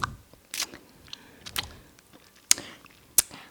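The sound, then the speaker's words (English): Crunching of a candy cane being chewed: a few sharp, crisp cracks spaced unevenly, with softer wet mouth sounds between them. “Girl, you been eating that candy cane? Is it done yet?”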